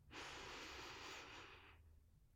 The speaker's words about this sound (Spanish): Inhala aquí.